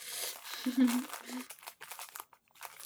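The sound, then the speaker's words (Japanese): Crinkling and tearing of a packaging bag being opened: a dense, irregular plastic rustle with louder crackling bursts in the middle, easing into lighter scattered crinkles. “とりあえず、袋を開けとくから開けるんだ、これ。ビリビリって言っていいのか、これは。”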